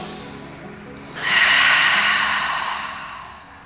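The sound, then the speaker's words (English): A deep inhalation during a yoga ujjayi breathing exercise: a breathy rush of air that surges in suddenly, holds for about two seconds and then fades gradually, heard alone. “Another deep breath in. One more deep breath in.”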